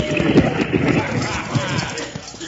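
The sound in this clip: Horses gallop while pulling a stagecoach, making a dense, steady rumble of hoofbeats blurred into a rough, noisy wash with no distinct single strikes.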